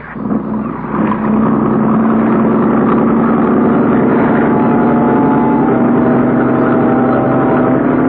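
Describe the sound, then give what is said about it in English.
Boat engine revving up on a dive survey boat while marker buoys are dropped to box off a search area; a loud, steady engine drone swells during the first second, then holds constant and unbroken to the end. “Rev it up.”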